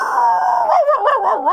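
A mixed-breed dog howls alone: a sustained, fairly loud tone that holds steady, then breaks into a wavering, warbling howl that bends up and down in pitch several times before ending.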